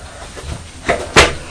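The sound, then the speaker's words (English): A chair being put back by a young boy, two short wooden knocks close together, the second louder than the first, over quiet background. “That's right, you're putting the chair back.”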